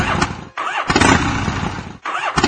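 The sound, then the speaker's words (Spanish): A motor scooter engine cranking and failing to start, with harsh, noisy sputtering bursts broken by two short pauses. “No me digas que no arrancó. La mierda de motoneta no arrancó.”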